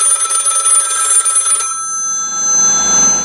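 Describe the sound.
A telephone rings for an incoming caller, one loud, bright, steady ring lasting about a second and a half, then dying away into quiet.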